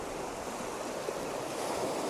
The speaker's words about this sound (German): Ist eine Welle höher, werden meine Fußspitzen auch einmal umspült.